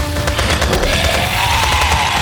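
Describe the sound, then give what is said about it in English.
A volley of rapid gunfire from soldiers ordered to fire at will: dense, overlapping shots merge into a loud, continuous crackling roar that lasts throughout. “Get down! Fire at will!”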